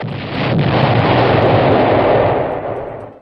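Bomb explosion sound effect: a single loud, broad, rumbling blast that swells within half a second, roars steadily, then fades over the final second.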